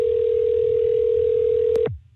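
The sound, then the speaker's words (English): A telephone tone on an outgoing call: one steady mid-pitched tone held for nearly two seconds, then a click as it cuts off abruptly. “Let's see if anybody wants to answer their phone.”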